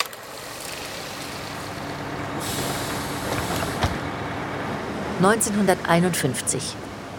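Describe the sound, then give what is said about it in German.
A bus pulls away with a low engine rumble and a burst of air hiss, while a voice is briefly heard near the end. “Sie schaut dem Bus nach, der sie hergebracht hat, und ihr Herz sinkt.”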